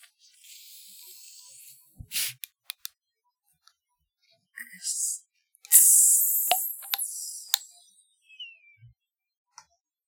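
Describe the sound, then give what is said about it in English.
A can of Moon Mist Blue soda is cracked open: scattered faint clicks and taps lead to a sharp crack and a bright hissing fizz, followed by a few more small ticks. “I got so excited when they got Moon Mist Blue at Sheets, and now they don't have any of it. Go ahead and crack it open. Gonna crack it open.”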